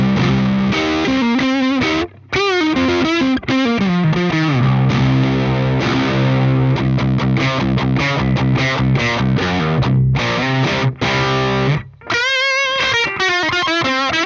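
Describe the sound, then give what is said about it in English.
An electric guitar plays through a Blues Driver overdrive pedal into a Twin amp, with a loud, gritty overdriven tone. Sustained notes and chords are broken by a few brief pauses, and no voices are heard. “then Blues Driver, when I'm playing through the Twin, is kind of always on”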